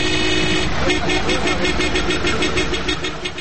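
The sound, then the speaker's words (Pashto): Loud car horns honking in Kabul traffic: many short, rapid toots pulse steadily over a dense rumble of engines, easing slightly toward the end. “د موټر لوړ هارنونه په ټولو خلکو په تیر بیا په ناروغه کسانو ډېرې بدې اغېزې کوي.”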